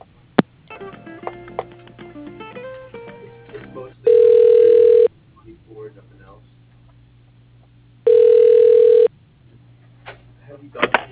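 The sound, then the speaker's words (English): Telephone ringback while a call is transferred to an extension: two long, loud ring bursts of about a second each, separated by a pause of a few seconds, after a voice speaks at the start. “At the tone, please say your name and company, and I'll announce your call. Kyle with Bank of Cardiff. Please hold while I try that extension.”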